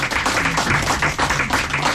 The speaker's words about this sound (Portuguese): E merece palmas. Obrigada, palmas, não merece?